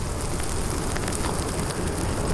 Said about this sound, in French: Et c'est juste ce qu'il faut, ça brûle comme il faut, ni trop ni trop peu.